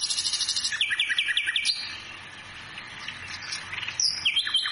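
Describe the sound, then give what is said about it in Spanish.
A nightingale sings a quick run of high, clipped chirps, then softer warbling, and a sharp new phrase near the end. “Este cantor nato es el ruiseñor. Mira qué lindo que canta.”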